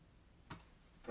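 Faint clicking on a computer while checking a schedule: a couple of soft, brief ticks separated by quiet, with no talk.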